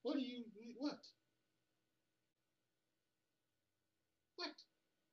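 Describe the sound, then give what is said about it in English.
A cat screams: a drawn-out, wavering yowl of about a second, then after a long quiet gap a second short cry. Both are faint. “my cat is screaming.”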